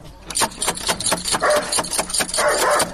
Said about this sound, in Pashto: اوهو دا څه بد سپی لري چې مونه داړي